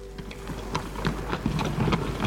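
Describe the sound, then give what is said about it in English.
Rhythmic clip-clop of hooves from a horse-drawn stagecoach passing through a small Connecticut village, an even, steady patter of many light hoofbeats over a constant low rumble. “The stagecoach from Hartford to Litchfield passed through the little Connecticut village on its way west”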